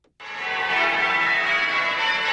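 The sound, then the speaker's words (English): Church bells ring in Spitalfields, East London, a bright, sustained metallic ringing that starts abruptly and holds steady and loud for about two seconds. “The bells of Christchurch, Spitalfields in East London.”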